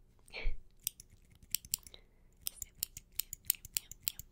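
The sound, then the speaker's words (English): Tiny scissors snip many times in quick, crisp, irregular clicks, used to trim hair before shaving during a nurse and doctor cranial nerve exam roleplay. A brief soft rustle comes just before the snipping starts. “Let me just take this scissors, my tiny little scissors, and just... I know it's a very tiny scissors, but it's effective”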